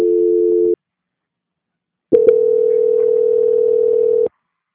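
A telephone line tone plays while a call is being transferred: a steady low-pitched hum sounds briefly, stops, then returns after a silent gap as a longer unbroken tone of about two seconds, opening with a couple of clicks.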